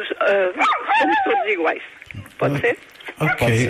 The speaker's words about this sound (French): Il a l'air d'aimer aussi le chien derrière.